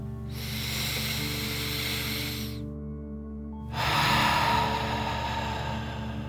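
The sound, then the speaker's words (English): Deep breathing in a relaxation exercise: one long airy inhale, a short silent pause, then a slightly louder, longer hissing exhale through the mouth, steady and unaccompanied by talk. “Deep breath in and out.”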